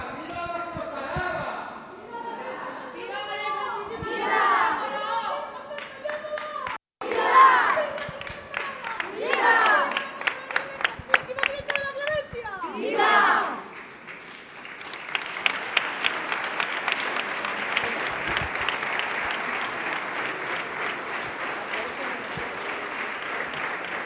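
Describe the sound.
Crowd cheering and applauding at a Holy Week street procession in Jaén, Spain, outside a parish church as a float is brought out. Shouted cheers and voices come first, then dense, sustained clapping fills the second half.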